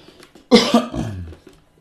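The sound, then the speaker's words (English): A sick person coughs in a short, sharp cluster: a loud burst, a quick second hack, then a raspy, fading tail, with no talk. “I'm coughing because I'm sick”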